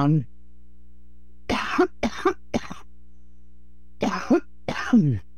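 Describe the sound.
A woman with a hoarse voice has a coughing fit: two clusters of sharp, harsh coughs separated by a quiet pause, each cluster holding several rapid bursts.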